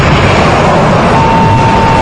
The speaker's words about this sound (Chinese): 3、2、1，点火！